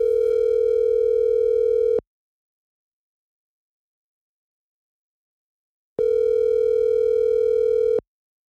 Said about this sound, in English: so I'm going to try to give him a call right now.